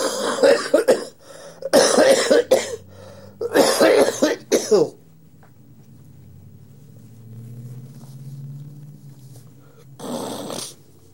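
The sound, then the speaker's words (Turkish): Harsh coughing from a speaker during a Turkish-language religious talk: several loud, rough cough bursts in quick succession, then a quiet low rumble, and a final cough near the end. “öyleyse öksürük cümlenin tamamlanmasına engel olabilir.”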